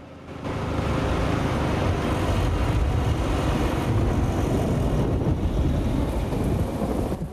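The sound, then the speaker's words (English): Heavy rain lashes down in a thunderstorm outside a wooden barn shelter, forming a dense, steady roar with a deep rumbling undertone that holds at an even loudness throughout. “Lightning flashes and heavy rain lashes down.”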